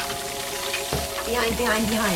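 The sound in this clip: Calamari sears in a hot pan in a restaurant kitchen, giving a steady, loud sizzle and crackle that continues without a break.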